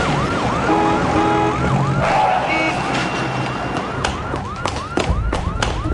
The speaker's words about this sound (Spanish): El carro policial siguió tras él y lo mantuvo en la mira durante un par de cuadras